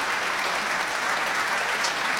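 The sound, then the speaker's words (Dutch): Audience applause for a French piano trio after a performance in the small hall of a concert hall in Amsterdam, a steady, dense wash of many hands clapping evenly throughout. “Applaus voor het Franse trio Pantoum.”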